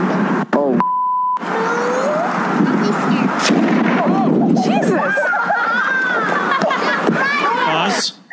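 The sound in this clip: Dry ice bombs exploding in the middle of a street: a few sharp bangs go off amid excited shouting voices, and a brief electronic beep sounds early on.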